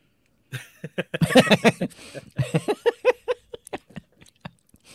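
Crunching of a crispy fried squid snack being chewed: many sharp, irregular crisp bites and crackles in quick succession, dense at first and thinning toward the end.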